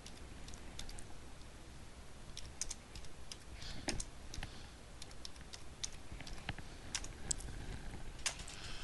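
Typing a message on a computer keyboard: a fast, irregular run of many faint key clicks over a soft background hiss.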